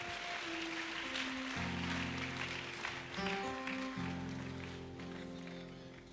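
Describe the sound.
A church audience claps for newly baptised brothers, a quiet, busy spread of clapping under sustained keyboard chords that shift every second or so.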